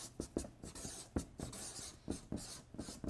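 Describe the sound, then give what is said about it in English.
Pen strokes writing words in purple ink, many quick scratchy marks in an uneven rhythm with short pauses, faint and without voices. “Get something, get a nice purple color here. So I'll just write obey and hearken.”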